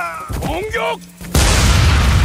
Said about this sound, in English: So his two compatriots just got blown up by a grenade.